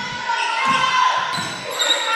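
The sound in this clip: A basketball being dribbled during a women's college game, a few low, dull thuds under loud, steady crowd noise.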